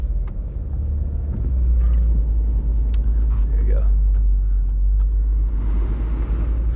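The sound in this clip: Car being driven on a cold morning with its windows still defrosting, a heavy, continuous low engine and road rumble that stays steady throughout.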